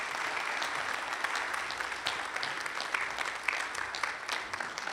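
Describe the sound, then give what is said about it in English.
A church audience applauds to welcome a missionary speaker, a dense, steady clatter of many hands that continues evenly for the whole stretch. “Put your hands together and make welcome Miss Fari Ryder.”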